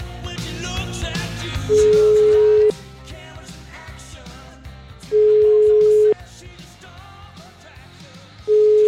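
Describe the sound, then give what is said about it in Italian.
Telephone ringback tones as a radio host calls someone, three loud, steady mid-pitched tones of about a second each, evenly spaced over continuous background music. “Proviamo a raggiungerla telefonicamente, questa signora Venturi”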